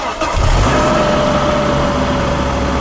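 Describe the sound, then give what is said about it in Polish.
A donor car's engine starts during a jump-start with the cables connected, catching quickly and running on as a loud, steady engine rumble. “Po podłączeniu przewodów uruchamiamy samochód dawcę.”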